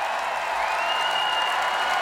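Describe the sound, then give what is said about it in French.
A festival crowd of 40,000 cheers at a rock concert, a faint, steady roar of massed voices and clapping. A sustained high whistle-like tone rises partway through and holds over the noise. “Ah oui, le public acclame. Ah, vous entendez, c'est ça, 40 000 personnes.”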